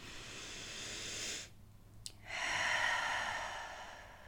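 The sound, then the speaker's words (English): One deep, slow breath, quiet and alone: a long airy inhale, a brief near-silent pause, then a longer, steady hissing exhale. “Let's do it again. Inhaling. And exhaling.”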